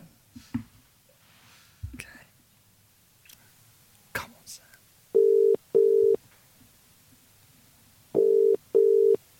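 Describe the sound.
A phone call placed by speed dial: soft clicks and hushed voices come first, then a ringback tone sounds as two double rings, each a pair of short, steady mid-pitched buzzes with a pause between.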